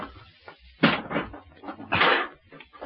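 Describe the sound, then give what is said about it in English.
A strongbox being opened, with two short bursts of scraping, clattering handling noise and quieter rustling between them. “Okay, now, where's the dough? In this strong box. Get it, Sammy. Yeah. Is it locked? No. All right, open it.”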